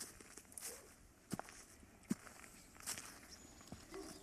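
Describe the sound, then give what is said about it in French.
Faint footsteps on a stony climbing path, a few irregular crunching steps with sharp clicks of stone over a low rustling background. “les chemins pour grimper sont pleins de pierres. Quand tu marches dessus, ça donne cette musique spéciale.”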